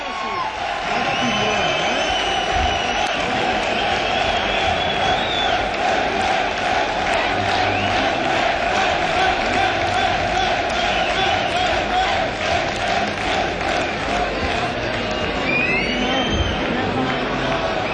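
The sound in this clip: A concert audience shouts and cheers for a municipal symphonic band in Valencia, Mislata, as the conductor readies the scores: a loud, continuous roar of many voices with scattered whoops and yells, steady throughout with no pause.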